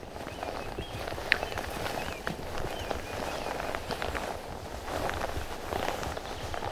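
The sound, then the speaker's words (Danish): Soft, steady footsteps of people walking up a wooded hill of beech and oak along an old Littorina sea cliff, quiet and even-paced, with faint bird calls above and no talking. “Men jeg tænker, at vi bare sådan stille og roligt går op ad bakken her igen.”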